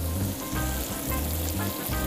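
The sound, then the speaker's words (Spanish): Garlic goes into tomato frying in a pan, giving a steady, even sizzling hiss with a low, rhythmic throb underneath and no pauses. “el tomate, ahí lo tenemos. No queremos que se nos pase mucho, entonces le metemos su ajito.”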